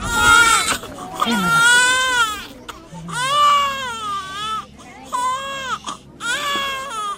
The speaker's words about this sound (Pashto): دغه ویډیو کتل د انسانانو زړه دردوي. په دغه ماشومانو کې یو داسې ډله هم ده چې ژاړي